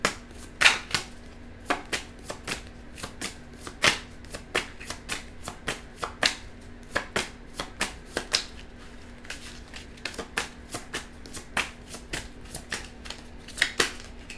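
Tarot cards being shuffled, many crisp riffling and slapping bursts in an irregular rhythm over a faint steady hum.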